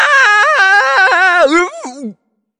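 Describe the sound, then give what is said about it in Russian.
A pirate screaming in pain after a heavy chest lid pinches his foot: one loud, drawn-out, wavering wail lasting about two seconds that drops in pitch at the end before cutting off abruptly. “Закричал было Дырка, но Буль-Буль зажал ему рот рукой.”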